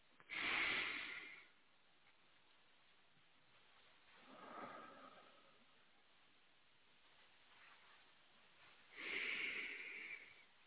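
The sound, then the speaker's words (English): Three slow breaths taken together during a church service, soft airy swells of breath spaced by long quiet pauses, faint throughout with no talking. “At this time, I invite you to join me in taking three slow breaths.”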